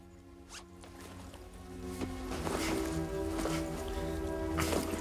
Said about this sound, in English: Dick unzips his leather biker jacket and stuffs his costume inside it.